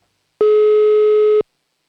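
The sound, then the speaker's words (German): A telephone ringing tone sounds on a call to a listener in Upper Austria: one steady, clear, mid-pitched tone lasting about a second, alone, with silence before and after. “Das heißt, es wird wieder richtig Zeit für das nächste Telefonat. Und wir rufen in Oberösterreich an.”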